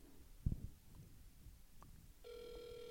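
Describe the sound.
Ringing on an outgoing phone call: a steady electronic ring tone begins near the end, after a stretch of low background noise with a brief thump early on.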